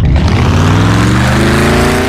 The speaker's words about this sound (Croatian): Wow, koja snaga! Čekaj, što si točio? Novo INA Classmaster gorivo. Zvuči baš moćno.